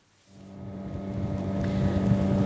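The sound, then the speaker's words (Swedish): Motorboat engine drones while travelling on the Patía river near the coastal town of Tumaco in southern Colombia. A steady low humming tone rises out of near-quiet and grows gradually louder, with wind noise and rushing water throughout. “Nu åker jag på floden Patía i södra Colombia, i nära kuststaden Tumaco.”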